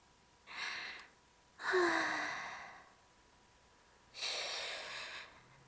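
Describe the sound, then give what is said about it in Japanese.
Three long, deep, breathy sighs, separated by short silences. The second is the loudest and trails off slowly. “こんな時は確かあれです、深呼吸なのですよ。”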